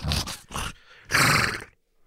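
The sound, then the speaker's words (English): A human voice imitates a massive hoofed beast snorting as it kicks a stable wall in a lather: three loud, rough, breathy bursts, the third the longest and harshest, then quiet. “you see Hydrovor kicking the wall with both of their massive hooves, snorting and just a lather.”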